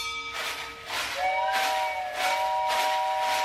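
A steam train sound effect made for a radio drama: rhythmic, hissing chuffs of the engine repeat steadily under a sustained, multi-tone steam whistle that holds to the end.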